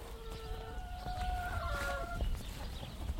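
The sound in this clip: Hens cluck in a farmyard flock of dozens, with overlapping drawn-out calls and short squawks over a steady low rumble, faint throughout.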